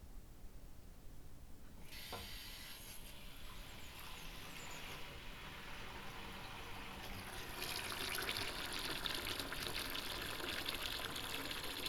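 Tap water runs while dishes are washed before supper. A steady broad hiss starts after a brief quiet lead-in, then grows fuller and louder toward the end. No one speaks.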